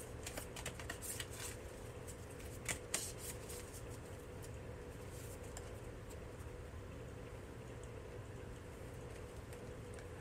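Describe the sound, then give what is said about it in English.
Oracle cards being shuffled and pulled: a quick run of soft riffling clicks over the first few seconds, then sparser, fainter card handling over a low, steady background hum. “I'm just going to pull some oracle cards here for more confirmation for you, Aries.”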